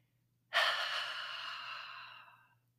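A single slow, airy breath during a guided relaxation exercise, faint and smooth, swelling quickly and then easing off gradually over about two seconds with no other sound.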